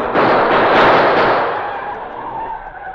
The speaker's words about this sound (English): The police sure to hear shots.